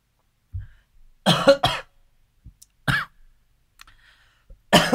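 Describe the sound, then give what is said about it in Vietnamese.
Several dry coughs in scattered bursts, two close together and then single ones spaced apart, with quiet gaps and faint clicks between them. “xin lỗi anh chị. Mấy hôm nay tự nhiên nó ho ho.”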